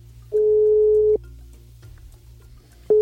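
Swedish telephone ringback tone while a call is being placed: one steady mid-pitched beep lasts almost a second, then a silent pause, and a second identical tone begins at the end.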